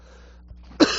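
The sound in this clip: A throat clearing with a cough bursts out once, short and rough, after a near-silent stretch with a faint low hum.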